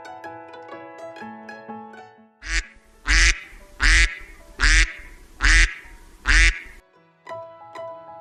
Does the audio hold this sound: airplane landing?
no